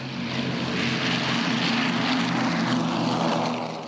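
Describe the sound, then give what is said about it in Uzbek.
Droning of 1940s propeller aircraft flying over Washington during a World War II memorial observance, a loud, steady engine roar with a low hum that holds throughout. “Poytaxt uzra 1940-yillar rusumidagi samolyotlar uchib o'tadi.”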